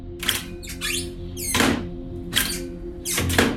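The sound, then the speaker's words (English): 1950s arrowhead latches on kitchen cupboards open and close with a few solid clacks and thunks. Short squeaky scrapes of the latch and door come in between, each catch sounding substantial. “The house had these cupboards with these old arrowhead latches from the 1950s. And I've got these in my kitchen too, and this is what they sound like. They sound like this.”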